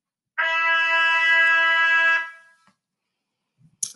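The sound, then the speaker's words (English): A trumpet holds the note E, played with the first and second valves pressed: one steady, bright brass tone sustained for nearly two seconds. It stops cleanly and silence follows. “This note is the E. You will press down the first and second vowel. It should sound like this.”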